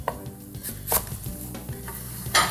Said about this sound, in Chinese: 白菜我们就直接切片就好了。